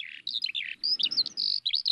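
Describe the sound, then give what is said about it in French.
Eurasian skylark song in open fields: rapid, high, warbling chirps and trills in quick bursts, loud and clear with short gaps between phrases. “C'est l'alouette des champs.”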